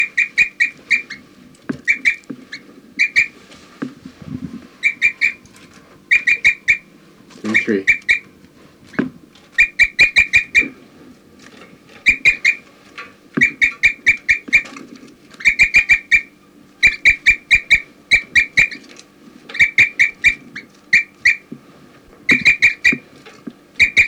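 Bird chirps and flight calls come in short, bright bursts, grouped in quick clusters and repeated many times, with sharp clicks in between.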